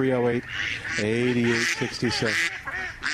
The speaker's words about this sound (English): I guess Spider-Man has ducks. I don't know. I don't know why we were getting ducks. Maybe there are ducks flying over?